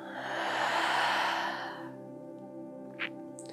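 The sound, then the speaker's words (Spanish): A long, deep breath exhaled through the mouth during a guided breathing exercise: one loud, airy rush lasting nearly two seconds, then quiet with soft sustained background tones and a faint brief click. “Toma una gran inhalación por tu nariz buscando llenar tus pulmones hasta el fondo. Y por la boca exhala soltando.”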